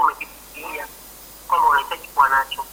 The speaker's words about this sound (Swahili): Kuna simu hapa tutapokea.